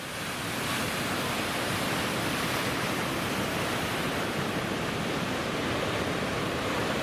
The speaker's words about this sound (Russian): Да, вон там волна такая хорошая идет, но ее же плохо видно, ты понимаешь?